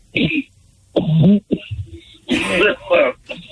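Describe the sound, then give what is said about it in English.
A caller coughs and clears his throat after choking: a few harsh, raspy bursts separated by short pauses. “You guys got me so excited, I choked.”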